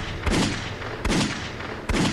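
Three revolver shots fired at a man's back sound as sharp, booming bursts spaced under a second apart over a steady rushing background.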